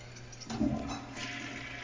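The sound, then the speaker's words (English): Toilet flush: a sudden rush of water bursts in about half a second in and keeps gushing steadily to the end, with no voices. “Somebody flushed a baby down here.”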